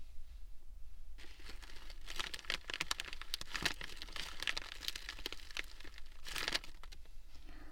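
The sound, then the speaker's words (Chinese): Crinkly tearing and rustling of a sanitary pad's plastic packaging bag being ripped open. A faint hush gives way to a steady run of crackling bursts and crinkles that lasts to the end, with no voices. “现在把包装袋撕开。”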